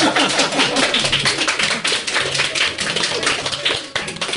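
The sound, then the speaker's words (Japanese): Applause from the audience at a live public recording: dense, overlapping claps that run steadily and fairly loudly for about four seconds. “拍手入れていただいていいです”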